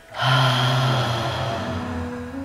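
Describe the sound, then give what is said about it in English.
A single deep breath let out through the mouth with a voiced ha sound during a guided meditation exercise. The exhale is long and breathy, starts strongly and slowly fades. “Let's take a deep breath in and breathe out with a ha sound.”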